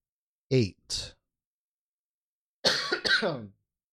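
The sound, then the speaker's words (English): Coughing left in a song recording: two quick, short coughs, a pause, then a longer, rougher throaty burst, with nothing else around them. “That cough is going to be in there.”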